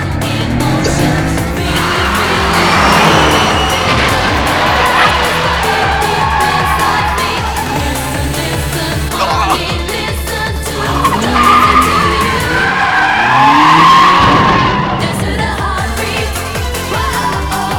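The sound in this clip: Tyres skid and squeal as racing cars accelerate hard in a close street race, one of them an AE86 pushed flat out in second gear. Loud, continuous engine roar and screeching fill the whole stretch.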